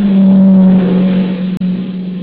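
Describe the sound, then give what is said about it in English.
A car engine hums steadily as the car approaches on a quiet night, a loud, continuous low drone with a brief dropout near the end. “No, wait. Here comes a car.”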